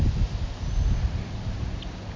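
Wind buffets a phone microphone outdoors on a street, producing uneven low rumbling gusts over a steady hiss, with no talking.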